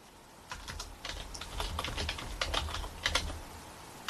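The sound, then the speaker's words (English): Fingers type on a computer keyboard, producing a steady clatter of many quick keystrokes in an uneven rhythm after a brief quiet start. “In fact, if I type it up,”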